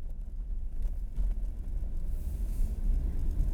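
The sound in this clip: A car drives onto a gravel forest road, giving a steady, low rumble throughout with no distinct crunches or voices.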